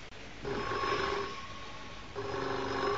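A telephone ringing indoors, two long, steady tonal rings, the first fading out before a short gap and the second starting abruptly and holding to the end, clear and alone without talk.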